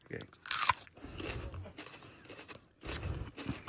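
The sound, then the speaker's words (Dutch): Crunchy biting into a chili pepper, with a few crisp crunches and chewing noises in short bursts, while people talk around them. “1, 2, 3, eat that chili.”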